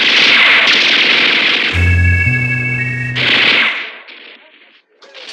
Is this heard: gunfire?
yes